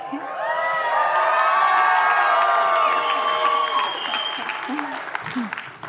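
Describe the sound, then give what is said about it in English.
A church audience cheers and claps for its worship team. Dense, loud applause runs throughout, topped by whoops and shouted cheers from many voices before it gradually eases. “you can give a thank you to the worship team, who I don't think are in here. But if you cheer loud enough, they'll probably hear.”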